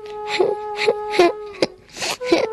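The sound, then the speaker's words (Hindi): A boy crying on a bench: a few gasping, wailing sobs in separate bursts over a steady held tone. “वो bench पर चढ़कर रोने लगा।”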